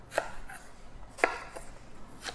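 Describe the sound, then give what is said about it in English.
A knife cuts through a peeled apple as it is halved and cored, with three crisp, sharp cuts spaced apart and quiet rubbing between them. “Okay, once you have the apple peeled, you're gonna slice them up. So I just halve it first and remove the core.”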